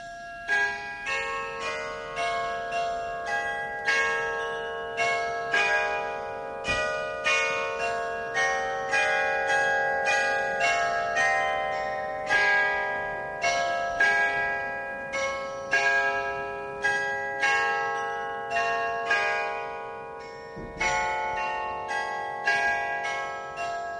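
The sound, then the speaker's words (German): A carillon chimes a melody in a long run of bright, ringing bell strikes, many overlapping notes sustaining and decaying one into the next at a steady, lilting pace, fairly loud throughout. “Was er da gerade gehört hat, das war das Glockenspiel in Banu”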